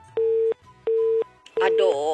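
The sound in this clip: Telephone call signal: two steady mid-pitched beeps of equal length separated by a short gap, then a third beep that a voice begins talking over.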